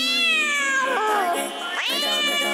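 A long-haired cat meows twice. A long, drawn-out meow falls in pitch, and after a short pause a second meow rises. Both are clear and fairly loud, with no talk.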